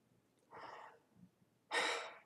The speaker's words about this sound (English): I'll take a deep breath.